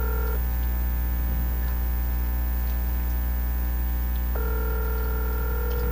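Telephone ringback tone from an outgoing call: a brief burst of the two-pitch ring at the start and another from about 4.4 seconds, sounding over a constant low electrical hum with no voices.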